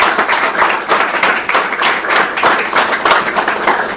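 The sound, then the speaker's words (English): A lecture audience breaks into applause after a talk on intelligence analysis. Crisp, dense clapping from many hands holds steady and loud for four seconds, with no voices over it. “let's first have a round of applause and thank you for”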